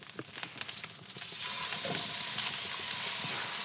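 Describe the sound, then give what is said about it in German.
Pieces of flank steak seared quickly in a hot pan give a hissing sizzle that swells louder partway through and then holds steady, with no talk. “Echt so ganz, ganz schnell einmal angebraten, ne? Ganz, ganz schnell. Je nachdem, wie heiß die Platte ist, nicht mal eine Minute.”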